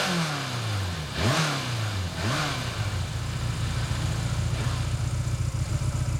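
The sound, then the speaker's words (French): A motorcycle engine revs twice in quick, swooping bursts, then settles into a steady, throbbing run that holds loud and even to the end. “C'est vrai qu'elle ronronne maintenant. Ah, vous voyez ce que je sais faire. Mais toutes les motos font comme ça, hein.”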